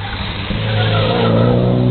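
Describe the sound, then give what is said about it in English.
A Porsche 944 race car roars past a hilltop corner during a motor race. Its continuous, dense engine growl swells steadily louder over two seconds. “What do we got here? Another Porsche.”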